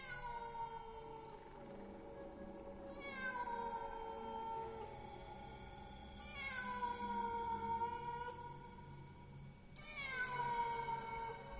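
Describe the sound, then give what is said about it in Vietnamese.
Cats yowl mournfully in long, drawn-out cries, each sliding down in pitch. Several cries follow one another at steady intervals, fairly faint, with no talking. “Trong không gian bây giờ vang lên những tiếng mèo gào, kêu lên vô cùng thảm não. Tiếng mèo kêu làm cho người ta rùng mình”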